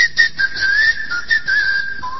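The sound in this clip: A person whistles a single sustained tone, bright and slightly wavering, broken by a few short breaths and dropping lower near the end, with no talking.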